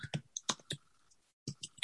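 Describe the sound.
Faint typing on a computer keyboard, a few quick light clicks, a short pause, then more clicks.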